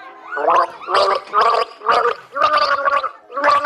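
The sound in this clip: A person gargles water to the tune of the children's song Alle meine Entchen. The wet, gurgling notes come in a series of distinct pitched bursts separated by short pauses.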